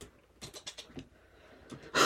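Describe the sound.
A cat scratching and ripping up a rug: a quick, quiet run of scratchy, rasping claw strokes, a short lull, a few more strokes, then a louder tearing burst at the end.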